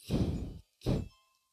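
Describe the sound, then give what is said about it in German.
In a video game, a wooden crate blocking a ladder is blown up. Two heavy, thudding blasts sound, the first longer and the second shorter, and a faint ringing tone trails after the second. “Fliegen zu der Holzkiste, die uns die Leiter blockiert. Sprengen sie in die Luft.”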